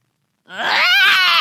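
A baby boy screams and cries while being walked and rocked after a feed. After a moment of silence, one loud, sustained, high-pitched wail starts and holds steady with a strained, wavering tone.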